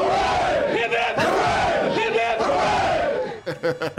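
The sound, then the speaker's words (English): A crowd shouts three rousing hip-hip-hooray cheers, each a loud, swelling group yell in an even rhythm, followed by a few brief, choppy bursts of sound. “Hope, promise for this team. Three cheers.”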